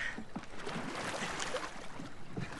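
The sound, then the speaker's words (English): Paddles dip and pull through water as a small boat is paddled along, a few faint splashy swishes over soft wind noise, with no voices. “Kitty looks around at Simon, who keeps paddling.”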